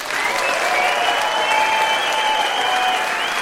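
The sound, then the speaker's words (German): A live audience in a hall claps and makes noise for a show's finale, producing a loud, unbroken wall of applause and crowd sound that stays steady throughout. “Und bitte jetzt von euch nochmal so viel Lärm zum Abschluss, wie es geht, für alle, die Podcast oder in der Deutschlandfunk-App hören.”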